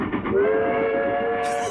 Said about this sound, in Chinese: 火车驶进长白山的时候，车速渐渐地慢了下来。